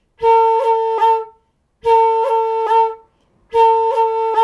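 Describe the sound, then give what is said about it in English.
Roll ornaments on a fingered wind instrument: a clear, pure A note cut with the B finger and tapped on the G hole, played three times with pauses between, each sustained tone broken by two quick flicks. “the roll is three distinct rhythmic gestures. The note, followed by the cut, followed by the tap. So with an A, we play the A, we cut the A using that B finger”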